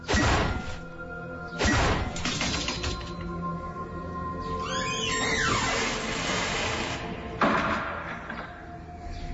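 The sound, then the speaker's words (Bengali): Police break a door lock with three heavy crashing blows, spread out with long gaps, while rattling and scraping metal noises fill the time between the impacts. “OC সাহেব বাসার তালা ভাঙের নির্দেশ দিলেন। তালা ভেঙে আয়েশার ঘরে ঢুকল পুলিশ।”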